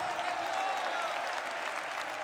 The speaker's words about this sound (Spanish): Dele un aplauso a Cristo por eso, amado hermano.